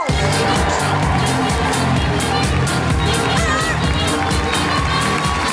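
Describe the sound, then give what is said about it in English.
An audience at a comedy show in Manchester claps and cheers for the first comedian, a loud, sustained wash of applause with whoops and crowd voices mixed throughout. “Then put your hands together and make incredible woohooing noises for the first comedian.”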